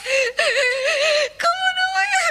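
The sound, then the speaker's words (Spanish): A woman cries in three long, wavering sobbing wails, each a tremulous voiced moan broken by short breaks, fairly loud and alone. “No, mamá, no llores.”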